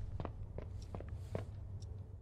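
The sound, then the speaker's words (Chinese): Footsteps of a player character in a video game, sounding like short, quick mincing steps rather than a grown man's stride: a faint series of soft thuds in an uneven rhythm. “你们有没有觉得我的脚步声听着太近了，就感觉像小碎步，不像一个成年男子在走路。”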